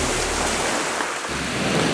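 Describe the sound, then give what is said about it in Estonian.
Sea waves play as background: a steady, full hiss of rushing water that dips briefly midway and then swells back. “Tõepoolest, kuigi olen käivitanud siin oma juttu taustaks mõnusa merelaine”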